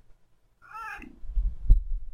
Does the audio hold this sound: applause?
no